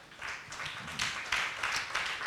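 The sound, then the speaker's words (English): A church audience clapping for the choir after praise and worship, a faint, steady wash of many hands with slightly louder surges. “Let's clap for our choir.”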